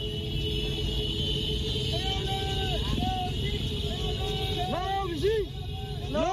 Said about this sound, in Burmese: ဒါကတော့မန္တလေးတိုင်းပုဂံညောင်ဦးဘက်ကမော်တော်ဆိုင်ကယ်စီးပြီးစန္ဒဖော်ထုတ်နေကြတဲ့အသံတွေဖြစ်ပြီး